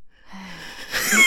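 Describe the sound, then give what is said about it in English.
A forceful breath drawn during a breathing exercise, a short, airy, gasp-like rush that swells louder toward the end. “you're now in the Headspace app and you are doing 5 breaths. In. And out for 8. Why are you doing it like that?”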